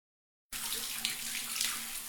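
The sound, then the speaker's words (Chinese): Shower water rinsing off leftover space-capsule filling fluid, a sci-fi audio-drama effect: a steady, hissing spray of running water begins abruptly after half a second of silence and continues evenly. “科芬对历史十分着迷，他一边在冲洗身上残留的太空舱填充液，一边回想共和国的过往。”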